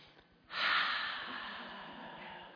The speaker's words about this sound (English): take a deep breath in of the Holy Ghost right now in faith